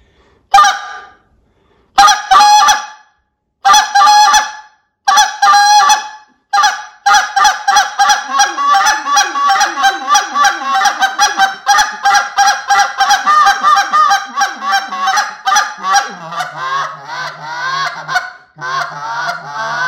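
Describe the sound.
A goose call is blown in an advanced calling sequence, with slow and fast murmurs run together. A few loud, spaced honks give way to a long, rapid run of short clucks and murmurs, which drop to lower, growly notes near the end.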